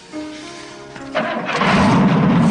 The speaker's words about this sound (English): Let me just hear that engine. We built it, man.